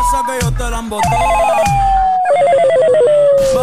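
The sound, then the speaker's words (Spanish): A telephone ringing tone sounds as a dropped call is dialed again: repeated warbling trills over a steady electronic tone, with low thudding beats underneath. “Deja, vamos a llamar ya otra vez porque se le cortó la llamada, no sé qué pasó.”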